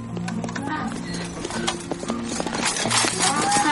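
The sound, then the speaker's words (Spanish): A mule's hooves clip-clop in a steady, uneven rhythm as a rider sets off on a mountain trail, the crisp hoofbeats sounding over a low, sustained tonal background. “Eduardo se coloca el sombrero y monta en su mula mientras James emprende el camino.”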